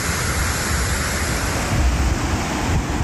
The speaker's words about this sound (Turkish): Su işte bu şekilde ne görüyorsa önünde alıp götürüyor.